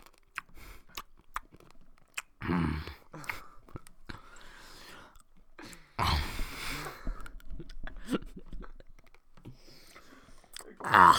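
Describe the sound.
Tic Tac mints are chewed very close to the microphone: wet, clicky crunching in irregular bursts, with some quiet talk.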